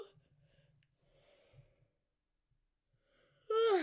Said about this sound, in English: sorry, had to yawn.